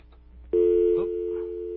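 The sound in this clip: A steady telephone line tone from a missed call starts abruptly after a faint click and holds one even pitch to the end.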